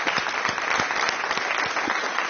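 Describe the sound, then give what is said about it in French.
Studio audience applause at a live-audience recording of a literary discussion: dense, steady clapping of many hands that holds at an even, moderate level from start to finish. “je salue le public. Présent. J'applaudis Antoine Volodine et nos invités.”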